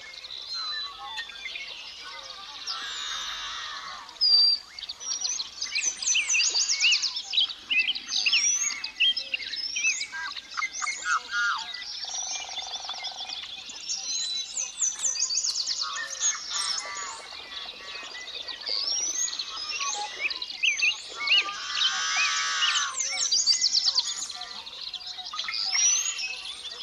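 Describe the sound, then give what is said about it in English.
Evening bird chorus across a cold lake valley in early spring: many birds chirping, trilling and calling at once in a dense, high, overlapping wash that stays fairly faint and continuous throughout. “Tune in to the whole evening chorus”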